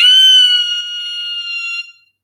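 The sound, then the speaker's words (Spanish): A woman's scream of horror: one loud, shrill, sustained high cry lasting about two seconds, holding steady before it quickly fades out, heard alone. “Jordán corrió al dormitorio y al verla aparecer, Alicia dio un alarido de horror.”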